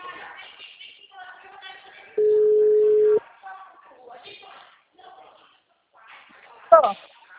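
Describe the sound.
A telephone dialing tone sounds as someone calls a business: one flat, steady mid-pitched beep lasting about a second. People talk before and after it, and a brief sharp burst comes near the end.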